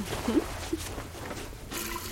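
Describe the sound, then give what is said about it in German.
Water splashing and trickling as someone washes in the bathroom, a soft, steady wash of running water with a few brief, louder splashes. “Conny läuft ins Badezimmer und wäscht sich mit viel Wasser.”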